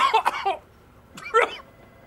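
Coughing from someone who got chocolate powder down the throat while eating tiramisu: two short, harsh bursts separated by a pause of under a second, fairly loud and alone.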